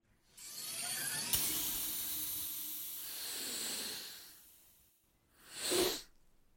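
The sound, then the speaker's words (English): Someone snorting an energizing powder: a long, hissing nasal inhale lasting several seconds, then after a brief pause a short, sharp sniff. “And if you need a little more, Limitless Energy is just a snort away.”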